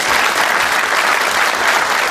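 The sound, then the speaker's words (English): A panel event audience gives a round of applause: dense, loud, steady clapping from many hands with no pauses and no voices on top. “So let's give them all a round of applause.”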